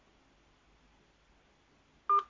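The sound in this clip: A telephone number is being dialed: one short, loud keypad tone sounds near the end after nearly two seconds of faint low background noise.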